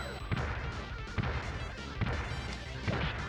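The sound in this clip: Heavy smashing blows from the safe-breaking bonus stage of the TMNT Tournament Fighters video game land in a steady rhythm of about four impacts, each a dull crunching hit over continuous game audio.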